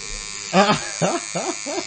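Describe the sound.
Electric hair clippers buzz steadily through a haircut, the small machine struggling. Their even, harmonic drone runs the whole time under people talking loudly over it.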